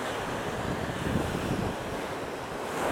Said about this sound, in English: And we look at the waves continually coming in, and the tide coming in, and the tide going out